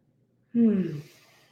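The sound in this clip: A deep breath taken during a kundalini energy session, heard as a single voiced, sigh-like exhale. It starts abruptly, falls slightly in pitch over about half a second, then fades into soft breathy air.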